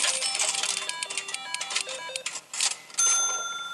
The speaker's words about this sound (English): They prefer to earn or win virtual coins in the game, which they put into a prize machine in the hope of getting a character they want.